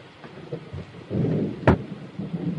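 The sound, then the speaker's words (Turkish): Heavy rain pours steadily beneath rolling thunder. A low rumble swells midway and then gives way to a single sharp, loud crack of thunder, followed by continued rain and softer rumbling. “Amma yağmur yağıyor ha.”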